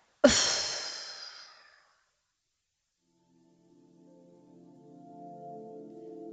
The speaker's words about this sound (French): Inspirez, soufflez.